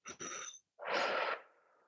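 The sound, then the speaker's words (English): A forceful exhale during a breathing exercise, belly pulled toward the spine as if blowing out candles: a short breathy burst, then a loud, sustained rushing breath that tails off softly. “pull your belly to your spine and exhale like you're blowing out candles”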